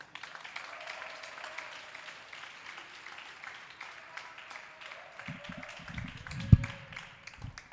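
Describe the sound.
An audience at a university poetry slam applauds with steady, fairly soft clapping throughout. A few louder, sharper claps stand out near the end.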